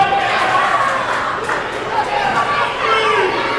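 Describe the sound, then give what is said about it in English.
Crowd at a live wrestling match roaring after a high-flying dive over the top rope: a sustained, loud wash of cheering and shouting with voices mixed in, swelling slightly near the end. “The crowd is going bananas right now.”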